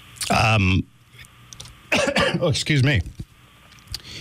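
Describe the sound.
Throat clearing and coughing from a tickle in the throat, in two short harsh voiced bursts separated by a pause, with a few smaller rasps trailing after.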